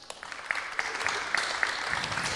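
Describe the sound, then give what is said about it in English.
Audience applause greets a guest introduced at a talk: dense, steady clapping with a few sharper claps standing out, moderately loud and continuous from start to end. “Can I have some applause, please?”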